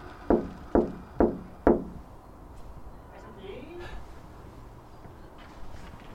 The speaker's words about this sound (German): Ist es okay, wenn ich an diese Scheibe klopfe?